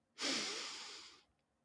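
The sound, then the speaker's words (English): A single deep breath during a grounding exercise: one long, airy, hissing exhale of about a second that rises sharply, fades gradually and then stops, heard alone. “let's take a moment to open our time together with a few deep breaths,”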